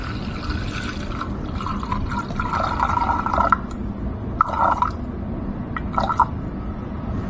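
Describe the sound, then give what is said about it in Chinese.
Water, 300 grams of it, pours into the carafe of a drip coffee maker set on a zeroed scale: a steady low trickle with a few brighter splashing surges. “清零以后呢，我们往里面倒300克的水”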